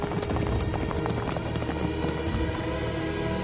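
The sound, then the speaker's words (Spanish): Galloping horses carry riders across a dry, rocky plateau, raising dust; many rapid hoofbeats run together into a dense, continuous rumble that stays steady and loud throughout. “Los caballos levantan una gran polvareda tras de sí.”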